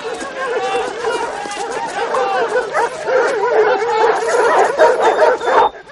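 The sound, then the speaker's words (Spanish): Dogs barking, yipping and whimpering as soldiers line up holding dogs for an operation in a ghetto, heard amid a dense, continuous crowd chatter that stays loud throughout. “Los soldados forman filas portando perros.”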